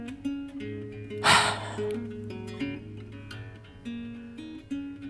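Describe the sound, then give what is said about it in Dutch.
A single deep breath, heard as a brief, noisy rush of air, rises over soft sustained background music with low droning tones. “Adem maar in. En uit.”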